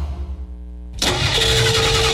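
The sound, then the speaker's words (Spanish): A car engine cranks and fails to start: a low steady hum, then a sudden loud burst of harsh grinding, churning noise at about one second that continues steadily to the end. “Estoy aquí donde mi novia y no me arranca el carro”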